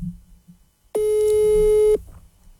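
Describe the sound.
A telephone busy signal heard when calling someone: a single loud, steady beep lasting about one second, preceded by a faint low murmur.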